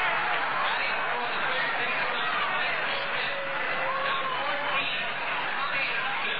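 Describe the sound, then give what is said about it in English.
Crowd cheering at a 1973 Chicago Cubs at Philadelphia Phillies baseball game: a steady, dense roar of many voices that holds at an even level throughout, with talk running over it. “Tommy Hutton coming out. He's getting cheered.”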